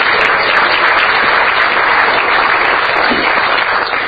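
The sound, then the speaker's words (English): Applause welcoming the head table at a meeting: a steady, loud wash of many hands clapping that holds evenly throughout. “So please give the head table a warm welcome.”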